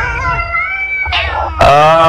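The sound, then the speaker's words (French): Several cats meow loudly in three drawn-out, tonal cries in quick succession that partly run into one another. The last cry is the loudest. “Qu'est-ce que c'est, là? C'est des chats, voyons.”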